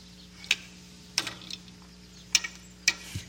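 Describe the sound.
Sharp clicks and clunks from the lever mechanism of a candy-dispensing puzzle machine as it is lifted. A few distinct mechanical snaps are spaced irregularly, with softer ticks between them. No voices.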